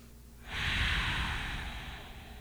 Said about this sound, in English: So, taking a deep breath with us.